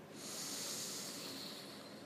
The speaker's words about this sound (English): So just take a couple of deeper than usual breaths, in through the nose, out through the mouth. So a big breath. And just that big release.